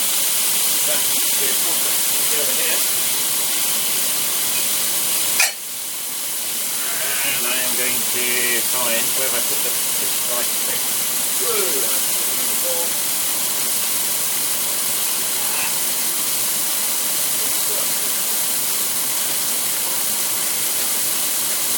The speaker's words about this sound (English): It makes a wonderful noise. I'm going to get the lid off my stock.